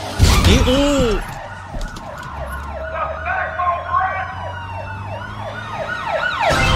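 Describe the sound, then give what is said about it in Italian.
A police car siren arrives, wailing in many repeated rising and falling sweeps over a steady low traffic rumble. “Polizia che arriva sotto.”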